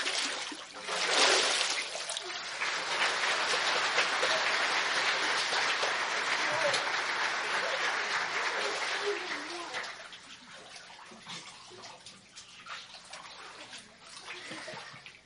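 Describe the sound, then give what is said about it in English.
Water splashes and sloshes during a baptism by immersion, with a steady rushing spray for about ten seconds that then eases into softer trickling and dribbling. “Hearing your testimony, and I now baptize you in the name of the Father, the Son, and the Holy Spirit.”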